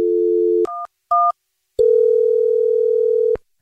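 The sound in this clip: A steady telephone dial tone starts a call back to a listener who texted in, followed by two short dialed keypad tones and then a long, even, unbroken tone that cuts off abruptly.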